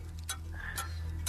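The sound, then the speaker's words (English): A quiz timer ticks during a true-or-false trivia game, three sharp, evenly spaced ticks over a steady low hum. “Well, that's the timer”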